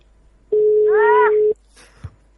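A telephone beep on a call: one steady electronic tone of constant pitch lasts about a second, followed by a brief faint rustle.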